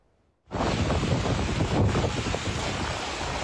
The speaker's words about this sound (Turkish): Hortum ve fırtına hayatı bakın nasıl etkilemiş.